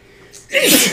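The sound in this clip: A single sneeze: a faint breathy lead-in followed by one loud, explosive, hissing burst that fades quickly, with no talk.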